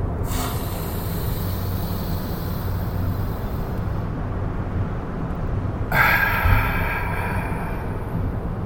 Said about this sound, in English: 3 deep breaths. Each one harder than the one before. Go.